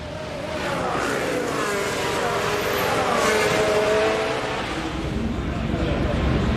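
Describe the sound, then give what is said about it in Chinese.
Two Mercedes Formula One race cars on track give a continuous high, droning engine whine that holds steady and loud from start to end. “现在还是两辆梅奔的赛车，安东内里”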